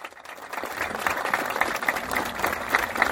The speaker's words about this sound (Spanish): pido un aplauso.